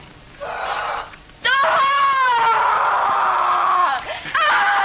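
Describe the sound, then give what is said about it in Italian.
An agonized woman's scream from a film's rape scene: a shorter cry, then a long, wavering wail that sinks slightly in pitch, then a final sharp cry at the end. “non voglio pensare a cosa sia detto questo urlo straziante preso da Rocco e i suoi fratelli”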